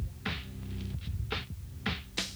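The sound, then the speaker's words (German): An electric fan chops the air above a chessboard: a steady low hum with several soft, irregular whooshing pulses rising over it. “Nur der Ventilator schneidet Luft in Pakete überm Schachbrett.”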